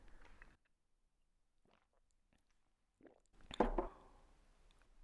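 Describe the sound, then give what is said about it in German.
A quick sip of tea, a short wet slurp and swallow that stands out after a mostly quiet stretch, with faint mouth noises scattered before it. “Moment, ich trinke schnell einen Tee.”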